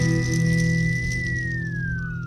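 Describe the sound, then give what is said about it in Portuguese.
A shrill, sustained whistle of a folklore witch, an old woman in black, holds one high pitch, then slides steadily downward, over a dense, constant low drone. “Quando sente a presença de alguém, ela dá um assobio estridente que parece gritar o seu nome.”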